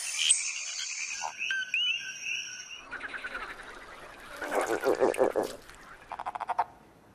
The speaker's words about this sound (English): Frogs blow air from their lungs through vocal cords and so produce a croak.